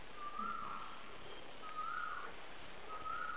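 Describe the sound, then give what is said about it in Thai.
Birds call outdoors at a spot with many birds. A clear whistled call repeats three times at steady intervals, each a short bright note sliding in pitch, over a faint, constant background hiss. “ที่นี่นกเยอะนะลองฟัง”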